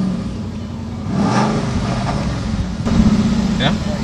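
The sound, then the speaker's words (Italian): Engine roar heard aboard a Mustang 5000 GT on a racing circuit in Lommel, Belgium: a loud, continuous low rumble that swells as the car accelerates, then surges again toward the end. “Ci troviamo a bordo di una Mustang 5000 GT, come sentirete anche dal rombo dei motori.”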